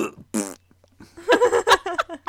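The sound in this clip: A voice imitates a fart with a few loud, raspy sputtering blurts: a short burst early on, then a longer run of choppy bursts toward the end.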